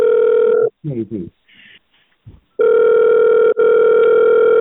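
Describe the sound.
Telephone ringing tone plays while a call is being transferred. A steady, buzzing tone runs in long stretches, interrupted near the start by a gap filled with brief, muffled fragments, then returns and holds loud with one short break.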